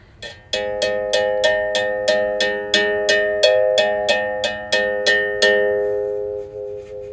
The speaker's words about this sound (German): Und dann schlägt man diese Stahlseite mit einer Vaqueta, heißt das. Das ist so ein Bambusstäbchen, ein leichtes an. Das klingt dann so.